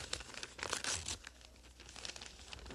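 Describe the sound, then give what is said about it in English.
Papery crinkling and tearing as an envelope holding a heavy birthday card is opened, a busy rustle with a louder burst early on, then steady softer crackling. “Here, it looks like a birthday card, but it's awful heavy. Must be something in it. I wonder who sent me a birthday card. Well, you'll never know until you open it.”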